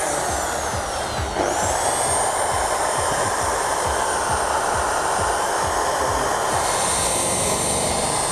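A polishing machine running at speed setting 2.5 gives a loud, steady whirring roar with a high, thin whine riding on top that climbs early and then holds level.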